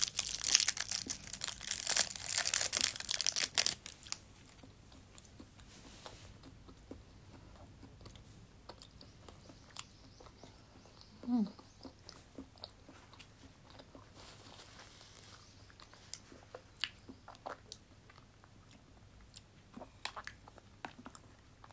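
Biting and chewing a peach: loud, dense crunching and wet mouth noise for the first few seconds, then quieter, intermittent chewing clicks and smacks that continue to the end.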